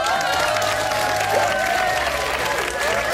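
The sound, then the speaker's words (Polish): Applause after a sung song, a continuous, moderately loud patter of many hands that holds evenly for the whole stretch. “znowu krasnoludki oklaskują cię, Leno”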